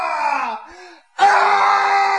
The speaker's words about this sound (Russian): Это папа. Он, наверное, вопит на радостях, что поймал крысу.